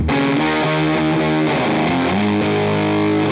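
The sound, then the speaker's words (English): Fuzzy, gated distortion from a guitar effects pedal with the drive knob maxed, its squared-off tone holding a series of loud sustained notes that shift pitch every half second or so, with no talking. “I don't love that like fuzzy gated thing with this pedal.”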